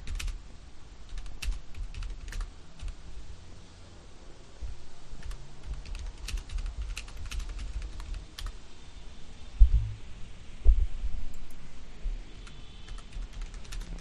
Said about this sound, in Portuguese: Eu vou digitar.